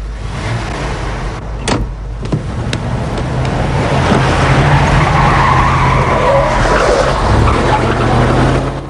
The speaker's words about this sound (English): Jim spins the 4x4 round and speeds back the way they came